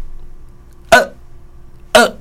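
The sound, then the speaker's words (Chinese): A voice imitates a child's hiccup twice. Each is a short, sharp, gulping hic, about a second apart, abrupt and loud against an otherwise quiet background. “囡仔打嗝是安尼”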